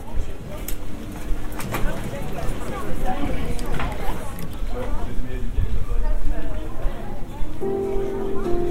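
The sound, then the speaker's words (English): A little girl's yellow clogs click-clack on flat cobblestones in a street in Nyons, southeastern France. A few sharp clacks stand out over a steady hubbub of people talking nearby. “there's a little girl walks in yellow clogs, which click-clack on the flat cobbles.”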